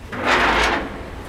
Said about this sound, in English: So I think this first door I can handle. I'm not sure about the second one. If you've ever seen a submarine door, it looks a little bit like that.